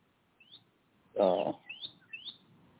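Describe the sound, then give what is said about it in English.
Birds chirp outdoors on a fine day in Georgia, giving a few short, high, thin calls. One louder, fuller call cuts in midway. “The birds are singing and”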